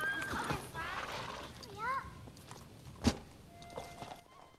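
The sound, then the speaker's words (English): A horse whinnies as a horse-drawn carriage moves off down a drive under an archway, with soft clip-clopping hooves, a sharp knock partway through, and faint rustling throughout, all quiet. “He smiles as the carriage moves off under an archway at the end of the drive.”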